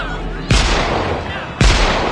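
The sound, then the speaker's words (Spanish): Two gunshots fired into the air beside a crowded ship's lifeboats, each a sharp, loud crack with a ringing tail, spaced about a second apart. “dispara al aire”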